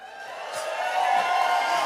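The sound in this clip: Audience yelling and cheering, a diffuse wash of crowd noise that grows a little louder after the first second and stays steady to the end.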